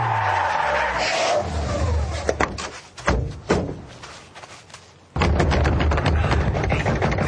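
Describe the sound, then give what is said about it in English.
A hot rod racing and skidding, a loud engine roar with harsh tire noise, broken by sharp banging bursts in the middle before a sudden, sustained roar at the end. “Jackson and Pierre race to Acula's castle in a danger hot rod.”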